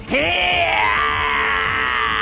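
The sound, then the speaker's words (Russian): An irritated scream from a monstrous king, a loud, strained, harmonic-rich cry that sweeps sharply upward at its onset and then holds a high, sustained tone for about two seconds, alone. “Послышался раздраженный вопль Алого Короля.”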